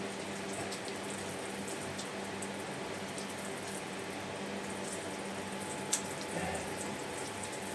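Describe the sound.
Water running from a tap while someone washes their face: a faint, steady hiss of flowing water throughout, with one brief click partway through.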